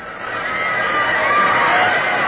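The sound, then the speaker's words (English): A crowd at a match cheers the Yale team as it is carried onto the field, a dense roar that builds slightly in the first half-second and then holds loud and steady. “Dear me, what's happening? They're cheering the Yale team.”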